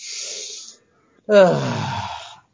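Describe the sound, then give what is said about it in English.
A deep breath: a soft, airy inhale, then a short silence and a longer, louder exhale that carries some voice, like a sigh. “So just take a deep breath.”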